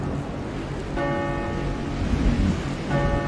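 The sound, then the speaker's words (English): A clock tower bell in a video game tolls twice through a storm, its ringing tones sounding over a constant wash of rain-like noise. “Oh, the clock, the bell still works. This is crazy! I've never seen storm like this!”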